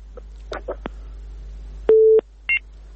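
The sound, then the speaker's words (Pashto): Telephone busy tone after a radio call-in line drops: a few faint clicks, then one loud steady mid-pitched tone for about a third of a second, followed by a short higher beep. “ښه فکر کوم له دوی سره مو اړیکه پرې شوه.”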